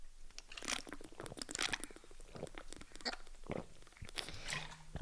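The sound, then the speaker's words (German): Someone quietly sips and swallows a drink, making soft, wet, crunchy mouth noises and gulps in an uneven series, faint and with no talk. “Ich muss mal einen Schluck trinken.”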